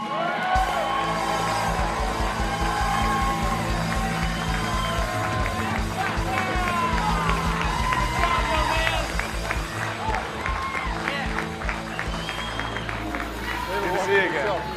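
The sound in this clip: Studio audience applause welcoming a guest, a football player, onto the show: loud, dense clapping with whoops and cheers that holds steady for the whole stretch.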